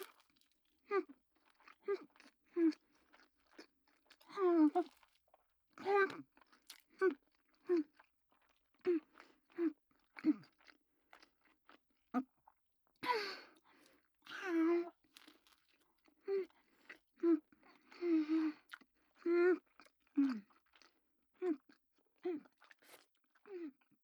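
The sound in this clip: Someone chews salmon hand-rolled sushi, with many crisp, crunchy bites and mouth sounds in short irregular bursts. The bursts are separated by near silence throughout.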